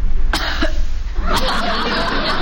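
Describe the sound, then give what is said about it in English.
A girl's deliberately phony coughing: a few short, sharp, breathy coughs in quick succession over a steady background hiss, with no clear talk. “if you start that phony coughing again”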